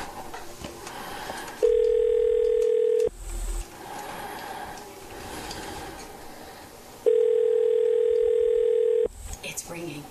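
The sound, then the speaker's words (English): Telephone line tones while a call is dialed: two long, steady, even tones of about two seconds each, separated by a pause in which voices talk. “We're dialing her right now.”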